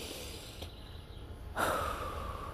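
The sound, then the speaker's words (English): A person takes one deep breath in, a soft, airy inhale rising out of a quiet, hissy background partway through and holding to the end, faint and with no talk. “I want you to take one more deep breath in with me.”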